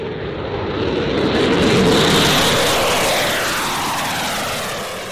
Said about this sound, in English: British military footage showed jets and a tanker aircraft taking off from an airbase in Cyprus.